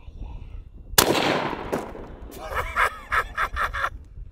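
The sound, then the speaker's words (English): A single full metal jacket round is fired, one sharp, loud blast with a long decaying tail, followed by several bursts of voices. “These are not armor penetrating rounds. One round, going straight down the middle, probably help if I pop the caps off there.”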